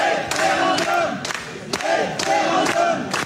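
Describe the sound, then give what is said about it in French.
Some 350 residents in a municipal hall in Rantigny, Oise, chant a single word in unison at data centre developers. The loud, rhythmic chant repeats in quick pulses, punctuated by sharp thumping hits. “Dans cette vidéo, enregistrée dans une salle municipale le 19 août dernier, vous entendez 350 habitants de Rantigny, dans l'Oise, crier référendum face aux promoteurs un peu ébahis d'un centre de données”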